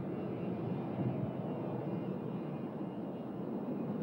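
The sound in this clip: An airplane takes off with a low, broad engine roar that stays steady and fairly faint throughout, a continuous rumble with no distinct events and no voices.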